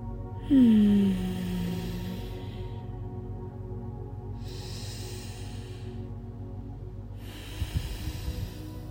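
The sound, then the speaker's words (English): Slow, deep breathing through the nose during a guided pelvic-floor yoga practice: three long, airy breaths separated by quiet pauses, over a low steady hum, with a brief low voiced sound near the start. “Just feel your body, relax it more, and breathe with your nose slowly and deeply.”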